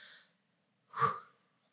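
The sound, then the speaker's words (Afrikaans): A deep breath drawn in and let out: two soft, airy breath sounds separated by a short pause, the second louder and slightly voiced. “So haal gou-gou net diep asem vir my, net gou.”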